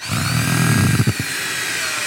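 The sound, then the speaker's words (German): A power drill whirs while drilling and driving screws into wooden boards as a hedgehog house is assembled: a steady low motor hum with a few brief knocking bursts near the middle, no voices. “Jetzt bauen wir die ganzen Hölzer zusammen. Und jetzt wird gebohrt. Okay, und wieder zurück. Und geschraubt.”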